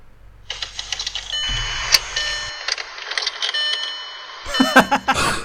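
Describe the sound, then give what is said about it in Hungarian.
A car engine cranking and then stalling out: a rapid, uneven train of mechanical clicks and rattles with a low rumble underneath. A few louder, sharper knocks follow near the end. “Azt látod, hogy indítgatja az autóját. És igen, csak és teljesen lefullad”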